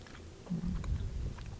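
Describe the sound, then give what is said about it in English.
A bite into a snack that looks like chocolate meets bacon and tastes like buttered, salted pasta: one firm bite followed by a short stretch of soft, muffled chewing, with no talk. “we're going to take a bite.”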